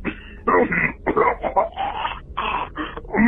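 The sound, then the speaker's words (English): A person coughs and clears their throat on a voicemail: a rough, rapid series of raspy bursts with short pauses between them. “Excuse me, that's not a COVID cough.”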